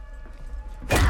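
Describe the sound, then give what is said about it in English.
A sledgehammer slams into a person's chest with one sudden, heavy thud. The loud impact comes near the end, over a low background rumble. “Sarah slams the sledgehammer into John's chest.”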